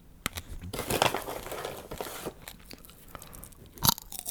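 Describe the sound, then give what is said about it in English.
Someone crunches and chews Peruvian popcorn kernels, making irregular, fairly faint crisp bites and crinkly crackles. Several sharper, louder crunches come near the end. “Oh, so delicious, these little Peruvian pop kernels.”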